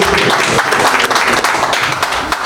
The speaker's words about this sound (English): Let's do a quick audio straw poll. If you enjoyed it, clap. And if you didn't, go boo.